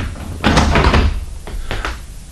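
A door being opened in a radio drama about the life of Omar Khayyam, heard as a few loud bumps and scraping knocks close together, with no voices.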